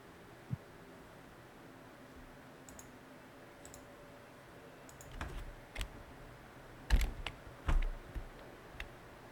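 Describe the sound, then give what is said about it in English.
A computer mouse clicking repeatedly to remove something in a video game: faint, irregular clicks scattered across the stretch, thickening into a cluster of louder clicks and thumps near the end, with no voices. “so in DBN I have to click 80 times to remove it.”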